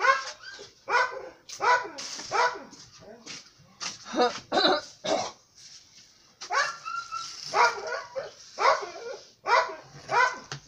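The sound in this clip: A dog barking over and over in many sharp, loud bursts with short irregular pauses between them.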